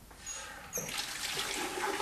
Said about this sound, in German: So. Und jetzt ein bisschen gespritzt.